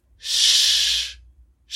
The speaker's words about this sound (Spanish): Este sonido de la SH usualmente escrita, o es la que las personas más relacionan, suena así.